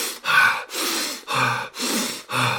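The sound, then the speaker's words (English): Rapid, forceful breathing from a demonstration of an intense breathing exercise, about five loud, rushing breaths in a steady rhythm of quick pulls and pushes of air, with no talk. “the actual Wim Hof method, which is pretty much 3 rounds of intense breathing”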